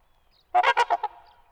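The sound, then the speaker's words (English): Trumpeter swan call, a large swan with a long neck and long straight bill, giving a quick run of about five nasal, horn-like honks, loud and alone, that fade into quiet. “Ornithologist David Sibley describes the trumpeter's voice as like the honking of a European taxi.”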